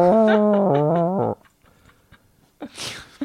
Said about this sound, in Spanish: Con un maullido, pues porque con otra cosa no.